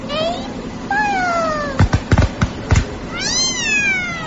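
A cat yowls in long, wavering cries that slide downward. A quick run of sharp bangs like musket shots follows, then another drawn-out yowl that rises and falls.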